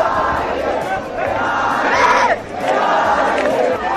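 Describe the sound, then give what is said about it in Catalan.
A crowd cheers and shouts without pause at a cheering battle in Barcelona, a contest among young people to win the public's admiration. Many voices blend into a loud, steady roar that swells and dips. “Que jutjar pel que esteu escoltant podria ser qualsevol persona animant, sí, potser en un partit de futbol. Aquest és el so, per això, d'una d'aquestes primeres batalles a la ciutat de Barcelona.”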